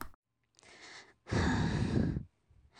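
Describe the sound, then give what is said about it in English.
A woman breathes into a microphone in a few separate, airy breaths, with one long, loud exhale in the middle and softer breaths before and after it. No words are spoken. “She just breathed into the mic like 5 times there.”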